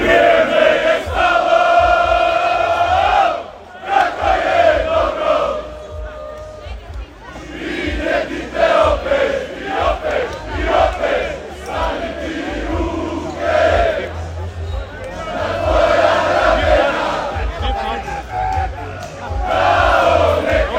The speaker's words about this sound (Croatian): Evo i dio atmosfere, kako je to izgledalo nešto ranije danas na okupljanju navijača.